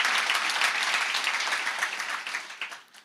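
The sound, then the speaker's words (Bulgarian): A church audience applauding, dense clapping that thins and fades over a few seconds until only a handful of separate claps remain at the end. “О, ако ръкопляскаш, ръкопляскай, като че си навярваш.”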